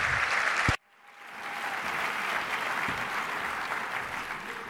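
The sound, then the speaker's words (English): Audience applause at a live event: loud, dense clapping that stops abruptly, then swells back into a steady, sustained round of clapping. “Let's give her another round of applause.”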